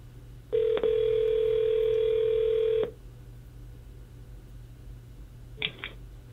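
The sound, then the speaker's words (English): A telephone dial tone hums steadily for about two seconds, then stops. After a pause come two brief keypad dialing beeps. “I dialed the wrong one on the pad here.”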